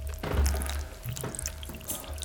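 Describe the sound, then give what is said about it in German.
Water is poured onto a potted azalea and a philodendron, making an uneven splashing trickle with a few brief, louder gushes and drips over a low rumble. “Er gießt der Azalee nach. Du auch. Danach bekommt sein Philodendron zu trinken.”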